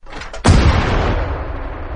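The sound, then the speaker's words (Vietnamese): A single gunshot from a pulled trigger: one sharp, loud blast with a heavy low boom, trailing off in a long, slowly fading rumble for more than a second. “Bằng, Tô Bạch bóp cò súng.”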